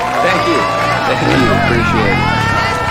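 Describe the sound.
Crowd of more than 20,000 spectators at a season-opening motorcycle race, a loud, dense hubbub of many voices and shouts held steady throughout.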